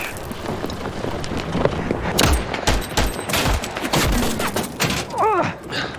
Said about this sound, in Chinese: 枪打得不准，这弹数用得多。